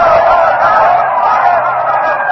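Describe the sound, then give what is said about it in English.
A crowd roars at Caesar's funeral after his will is read, denouncing the conspirators and calling for vengeance. A dense, steady wall of shouting voices holds at one loud level throughout. “the crowd is now denouncing Decimus Brutus, all the conspirators, is calling for vengeance”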